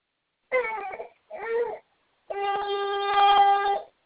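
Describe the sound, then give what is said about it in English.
A baby hollers during a diaper change, giving three crying bursts with the last one the longest and most sustained, a strained, harmonically rich wail. “In case you can't tell, we're changing another diaper. I kind of gathered that one from that holler.”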